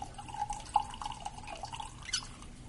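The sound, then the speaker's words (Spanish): Dark liquid poured into a cup, heard as a faint, uneven trickle with soft drips over a low background hiss. “Gail echa un líquido oscuro en una taza.”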